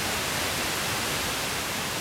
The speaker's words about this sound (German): Ich drehe jetzt hier am rechten Sendersuchrad. Sie hören 90,25 MHz. Genau, dann kriege ich halt unter Umständen nur Rauschen.